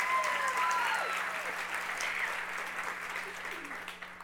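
Congregation applause welcoming a worship leader at a church service: a dense, steady wash of clapping that gradually thins and softens toward the end.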